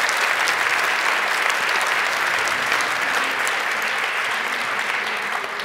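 Loud, steady applause from an audience welcoming an author at a book event. Dense clapping continues evenly for the whole stretch with no break.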